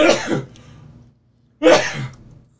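Two loud sneezes from someone with allergies, each a sharp burst that tails off, with a short quiet gap between them.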